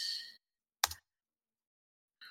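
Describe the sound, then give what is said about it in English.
Someone types a chat message on a computer keyboard, giving a few separate clacky keystroke bursts spaced out by stretches of silence, fairly quiet and with no talk. “Okay, so let's type those in the chat.”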